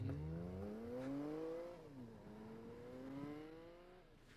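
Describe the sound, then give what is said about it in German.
A car's engine as it pulls away, faint and humming: the pitch climbs, dips sharply, then rises again as it accelerates. “Jetzt steigt sie wieder in ihr Auto.”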